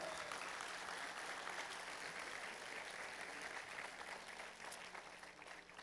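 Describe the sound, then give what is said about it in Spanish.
A church audience applauds with dense, steady clapping that continues throughout and eases off slightly near the end. “Denle un aplauso al Señor si puede,”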